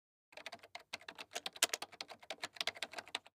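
Rapid typing on a computer keyboard while writing a book: many quick keystrokes in irregular bursts, crisp and steady, with no voices.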